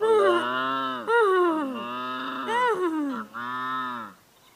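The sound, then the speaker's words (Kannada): Cattle lowing in a school cowshed: a few long, drawn-out, harmonically rich calls that bend in pitch, each following closely on the last and fairly loud throughout. “ಶಾಲೆಯ ಗೋಶಾಲೆಗೆ ಹೋದಾಗ ಅಲ್ಲಿ ದನ ಮತ್ತು ಕುದುರೆಯು ಹೀಗೆ ಕೂಗುತ್ತಿತ್ತು”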